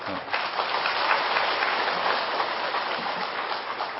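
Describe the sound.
An audience applauds during a Buddhist monk's dharma talk. Dense, even clapping runs throughout as a steady, rain-like patter that holds at a moderate level without clear breaks.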